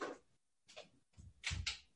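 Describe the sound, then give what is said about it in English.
A drawer in an acupuncture supply cabinet slides open in a few short scraping, rattling bursts, the last ones loudest, with no talk over it. “Right here. In my acupuncture thing, one of these drawers. There we go.”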